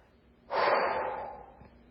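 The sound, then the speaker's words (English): A person takes one deep, audible breath, a single airy rush that begins sharply and fades slowly over about a second and a half. “Deep breath.”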